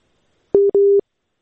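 A telephone busy tone after a dropped call: two loud, steady mid-pitched beeps, a short one and then a longer one, surrounded by silence.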